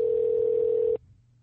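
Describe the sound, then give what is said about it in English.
A telephone dial tone as a call is placed: one steady, unbroken tone that holds for about a second and then cuts off abruptly, leaving near silence. “I'll call you on your phone. Give me a second. All right. So I think I already got a number in here. So let's see if this works.”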